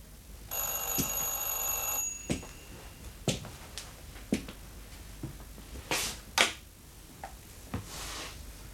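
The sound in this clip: A telephone rings with one sustained bright electronic trill lasting under two seconds, then a series of sharp clicks and taps follows, all fairly faint.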